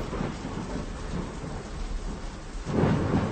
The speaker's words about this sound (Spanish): Está lloviendo a cántaros y es hora de regresar a casa.